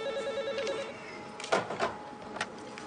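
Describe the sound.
A telephone rings with a quiet electronic trill in a rapid warbling pattern for about a second. A few soft clunks and rustling noises follow.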